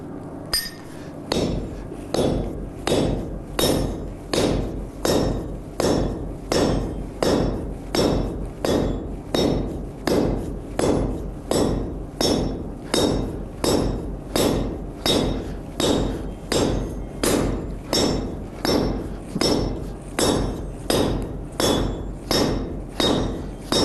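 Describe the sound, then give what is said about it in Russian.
Hammer strikes forging a nail from a wire blank set in a nail-heading tool, many sharp metallic blows in a steady, evenly spaced rhythm, each with a bright ringing clink, going on without pause and with no talk. “Вот, у нас есть такая заготовка. Есть такая гвоздильня. У нее вставляется заготовка.”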